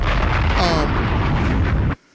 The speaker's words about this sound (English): Bombs!